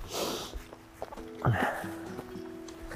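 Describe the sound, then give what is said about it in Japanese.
Heavy breathing while hiking up a mountain, breathy puffs mixed with footsteps on the trail, faint and uneven. “はあはあ今日はめっちゃハーハー言ってる配信ですわ。”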